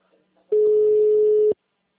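A single steady ringback tone sounds on an outgoing phone call: one clean mid-pitched beep lasting about a second, with silence before and after.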